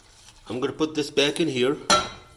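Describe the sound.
A piece of butter is put back into a bowl, with utensils and dishware clinking under ongoing talk and one sharp knock near the end.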